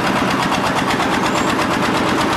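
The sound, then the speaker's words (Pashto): Engine of a construction machine lifting bricks at a building site for a four-storey commercial market: a loud, rapid, rhythmic chugging drone that stays steady throughout, with no voices. “دلته کارګر په سړې هوا کې په کار کولو لګیا دي، ځینې بیا د ماشین په وسیله لوړ پورته خښتې پورته کوي.”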